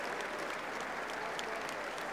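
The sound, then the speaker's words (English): Applause from the crowd at a tennis championship trophy presentation: a dense, steady wash of clapping that holds at an even level throughout, with no single voice standing out. “Martina Navratilova leading the applause in the royal box”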